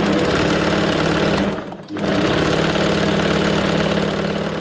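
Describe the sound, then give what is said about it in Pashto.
A tailor's sewing machine in Kabul runs with a loud, steady mechanical whirr. It stops briefly near the middle, then starts again and keeps running evenly to the end. “د خیاطۍ د ماشین غږ دی.”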